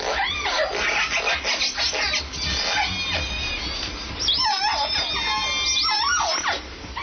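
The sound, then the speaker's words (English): Orcas from all three endangered Puget Sound southern resident pods call together, with many overlapping squeals and whistles that sweep up and down in pitch, loud and continuous with no break. “Scientists have long suspected that whales have language, and new research suggests that they even have local dialects. What you're hearing is a recent gathering of all three pods of Puget Sound's endangered southern”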